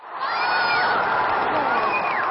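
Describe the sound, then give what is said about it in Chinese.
Stadium crowd roaring at the athletics World Championships after the men's 4x100 m relay final won silver by China. A loud, sustained wall of cheering carries a couple of high whistle-like tones across it. “冲过终点线后，中国的小伙子们收获了全场震耳欲聋的欢呼声和来自对手的拥抱”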